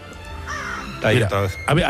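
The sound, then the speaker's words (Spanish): A crow caws a few times, each call harsh, raspy and fairly loud, coming in quick succession in the second half while people talk. “Pues para eso, para que nos libre del cuervo.”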